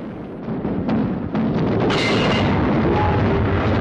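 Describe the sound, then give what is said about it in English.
Naval gun salvo fired by the ship Amethyst: a few sharp blasts in quick succession, then a heavy rolling rumble that stays loud to the end. “The Amethyst unleashes a salvo of return fire.”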